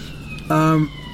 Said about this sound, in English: but sirens there? Sirens?